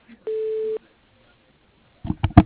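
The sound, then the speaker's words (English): A telephone call being transferred to voicemail gives a single short, steady electronic tone, followed by a quiet pause and then a few brief, louder muffled bursts. “Hold on, I'll transfer your voicemail.”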